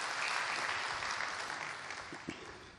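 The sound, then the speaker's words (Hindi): An audience applauds to welcome a professor about to speak on the art of positive thinking. The clapping is dense and continuous, slowly fading toward the end. “तो हम एक बार करतल ध्वनि से इनका स्वागत करेंगे।”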